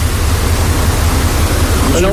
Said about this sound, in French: Et là, l'eau s'écoule dans le sas aval grâce aux ventelles des portes intermédiaires qui sont ouvertes.